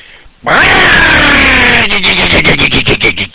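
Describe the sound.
A voice imitates an automatic transmission being forced into reverse while the car is moving: a loud, sustained grinding whine that slides downward in pitch, then breaks into a rapid, rattling string of pulses.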